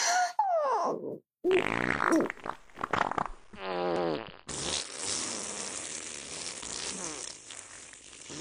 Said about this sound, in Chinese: 恐怖的放屁声回荡不绝